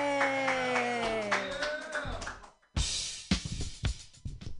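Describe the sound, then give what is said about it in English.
An audience claps for a comedian at a joke workshop show. After intro music fades into a brief pause, scattered bursts of clapping break out and continue unevenly to the end. “Put your hands together for Chris Beasley.”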